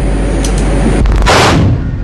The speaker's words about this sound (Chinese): 不明空中目标向我进飞，炸弹发射。